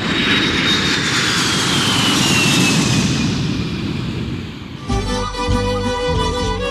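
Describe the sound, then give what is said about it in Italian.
An airplane taking off, with a loud, sustained engine roar and a high whine that slowly falls in pitch. After about five seconds, music cuts in over it. “allacciamo le cinture di sicurezza e decolliamo con lui per il Perù.”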